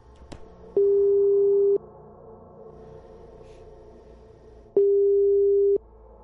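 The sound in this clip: Telephone line tone heard while dialling a call: two long, steady mid-pitched beeps, each about a second long, separated by a pause of roughly three seconds with faint background noise between them.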